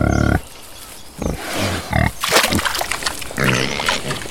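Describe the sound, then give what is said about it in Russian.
A wild boar grunts in a puddle, letting out a few loud, harsh bursts of grunting with short pauses between them. “Кабан пятаком прорыл себе проход под забором и так и оказался в чудесной луже.”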